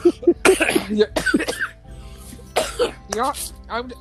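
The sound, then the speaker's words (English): A person coughs repeatedly in harsh, loud bursts, mixed with some throat clearing and short vocal sounds between them. “I just bragged that I was not gonna cough that much on this episode because these cough drops. Now look at me.”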